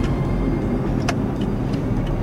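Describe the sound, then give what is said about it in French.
Road traffic with trucks in a port area: a steady, dense rumble of engines and tires runs throughout at an even loudness, with a faint higher whine passing briefly and no talk. “On est dans la zone portuaire, là, vous voyez, il y a quand même pas mal de circulation, des camions.”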